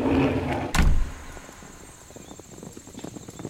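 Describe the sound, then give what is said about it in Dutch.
A ship's hatch is shut in one heavy, loud thud early on, followed by quieter scattered rustling and a faint, thin high tone. “Dicht dat luik!”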